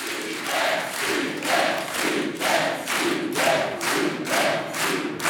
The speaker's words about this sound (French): vous regardez votre public, c'est bien, qui vous encourage à tenter le super